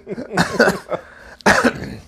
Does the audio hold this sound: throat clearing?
yes

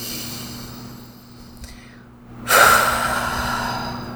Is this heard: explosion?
no

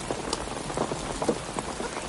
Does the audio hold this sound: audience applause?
no

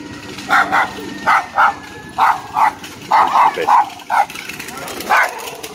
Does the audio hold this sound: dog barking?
yes

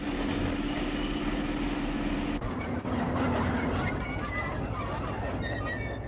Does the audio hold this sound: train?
yes

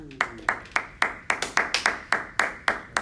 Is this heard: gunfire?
no

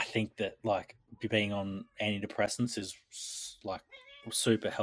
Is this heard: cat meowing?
yes

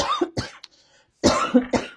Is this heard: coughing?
yes

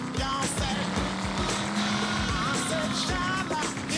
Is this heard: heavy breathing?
no

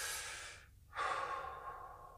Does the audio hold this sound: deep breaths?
yes

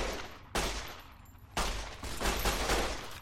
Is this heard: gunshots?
yes

